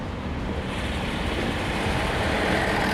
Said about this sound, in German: Wir fahren am Quai die Seine entlang. Aber noch sind wir im Tunnel.